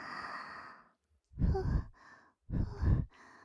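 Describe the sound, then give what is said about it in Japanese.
Soft breath blown gently into the ear: three airy, whispery puffs, the first longer and quieter, the next two stronger and breathier, with short silences between them and no talking. “お耳ふうふうも好きなんでちゅね。”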